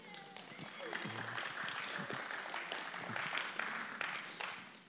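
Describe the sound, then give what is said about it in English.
A church audience cheers and claps to welcome the children back into the service, a sustained, moderately loud wash of crowd noise with scattered claps and voices throughout. “Thank you for those who cheered.”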